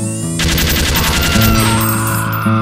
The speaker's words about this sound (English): Use a gun. And if that don't work, use more gun.